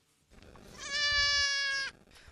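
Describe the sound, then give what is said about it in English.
A goat on the back lawn of a family home in Kildare gives a single steady, nasal bleat lasting about a second, rising sharply out of quiet background and stopping abruptly. “I want you to meet my goats, Aslan, Geronimo, Satanta and Darby”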